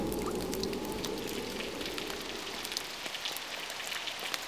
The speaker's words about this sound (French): Quand j'entends le vent et la pluie,